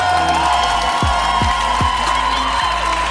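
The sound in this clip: Crowd cheering, whooping and making noise for a musical guest on a show, a continuous loud din punctuated by several deep, regular thumps.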